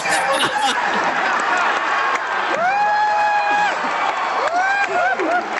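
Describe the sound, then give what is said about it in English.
An audience in Hall H cheers and applauds a film announcement. The roar of cheers and clapping is dense, and a few high, sustained whoops rise above it midway and near the end. “That was the sound of Hall H when they fucking announced this shit”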